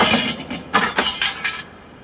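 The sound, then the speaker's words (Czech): Glass of a lamp breaking, heard as several sharp, bright clinking crashes in quick succession, loud at first, before the sound drops away into near quiet, with no voices. “Lampa se ti rozbila a nastala tma.”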